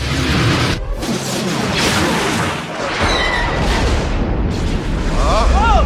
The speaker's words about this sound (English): That blast came from the Death Star. That thing's operational.